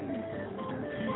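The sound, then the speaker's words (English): Electronic tones and chiming jingles of casino slot machines on a Las Vegas hotel casino floor, layered and continuous through a brief stretch with no talk. “Jamie was in Vegas for the weekend, and of course that's the sound you hear every morning as you walk down, and you walk out of the rooms, and you have to go through the casino every time”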